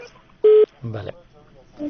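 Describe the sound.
A short steady electronic telephone tone sounds once after a dropped phone call, followed by a brief voice-like burst and faint background.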